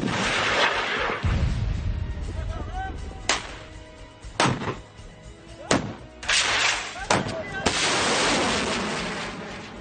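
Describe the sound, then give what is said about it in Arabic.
Artillery pounds a hilltop of militant bunkers and fortifications at Jabal Talaat Musa. Many heavy booms and sharp cracks go off in quick succession over a constant rumble. “أعطي الأمر لقواعد النار بالرماية على كامل امتداد التلة ومحيطها، حيث تنتشر دشم وتحصينات المسلحين.”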